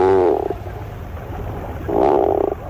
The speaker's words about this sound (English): Although not a first-rate vocalist, the bird making this groan-like call is one of the most recognizable to the eye. These sounds belong to the tufted puffin.